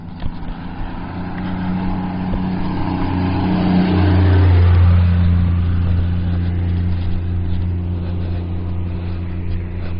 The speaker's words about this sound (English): Complete with little four-wheel drive farm vehicle.